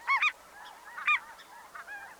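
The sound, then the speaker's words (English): A Ross's goose, a small white goose about two-thirds the size of a snow goose, giving several short, high-pitched honks, some in quick pairs, separated by brief pauses with no other sound. “the Ross's goose evolved to be about two-thirds the size of a snow goose, with a noticeably shorter neck, smaller bill, and higher-pitched voice, too.”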